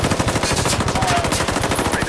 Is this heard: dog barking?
no